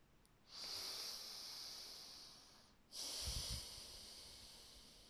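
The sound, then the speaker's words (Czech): A person takes two slow, deliberate breaths during a guided relaxation exercise, a long airy inhale followed by a long hissing exhale, each lasting about two seconds, softly audible with no talk. “udělej nádech a výdech.”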